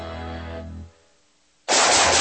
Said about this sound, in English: Whew, nice shooting.